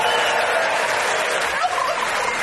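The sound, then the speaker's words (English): Turkey gobbling at the presidential Thanksgiving turkey pardon ceremony: a rapid, rattling gobble that fills the whole moment, loud and continuous, with a broad rough wash around it. “it's tradition in America that the president pardons one turkey in a show of goodwill ahead of the holidays. We go live to the ceremony now.”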